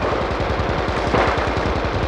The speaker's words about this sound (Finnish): Tuhannet piiput hehkuivat kuumuutta, tuhannet kädet latasivat ja ampuivat.